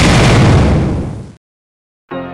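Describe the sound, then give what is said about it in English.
A 12-gauge double-barreled Remington shotgun blast: one loud, broad boom with a long, rough tail that decays for over a second, then a brief silence before a tonal sound begins. “The 12 gauge double barreled Remington. Come get some.”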